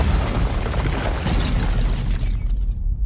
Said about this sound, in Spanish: Tobar sale del escondite. La puerta explota.